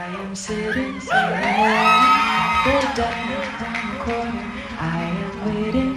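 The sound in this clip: A live concert audience sings along with a performer, many voices carrying a melody together, with whoops and cheers swelling past the first second and staying loud to the end.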